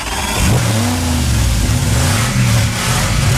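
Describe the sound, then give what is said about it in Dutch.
A car engine revving hard as the driver accelerates, loud and continuous, its pitch climbing in several rising sweeps. “Lekker even gas geven nog.”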